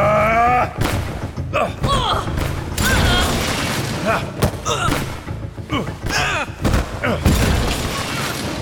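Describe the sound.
Gunfire rings out in a dramatized shootout, with many sharp, booming shots in ragged bursts. Shouting voices mix in throughout.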